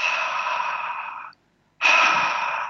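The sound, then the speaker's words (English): A voice imitates white noise with breathy H sounds: two long, steady airy exhalations, separated by a brief silence, the second starting slightly louder before fading gently. “You can do the S sounds, shh, shh, shh, or the H sounds,”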